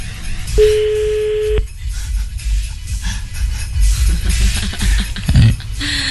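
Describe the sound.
Ringback tone of an outgoing telephone call: a single steady, mid-pitched tone lasting about one second, followed by quiet, noisy line hiss.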